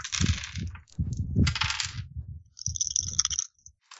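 Dice rattle and clatter across a table as players roll for initiative in a tabletop role-playing game, with a few bright, jingling bursts of rolling and tumbling separated by brief pauses.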